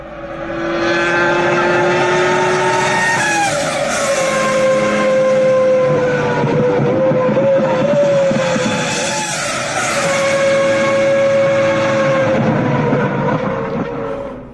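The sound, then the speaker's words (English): Car engine downshifting, loud and sustained, its engine note stepping down in pitch several times as the revs swell and fall, with no voices. “I love counting the downshifts.”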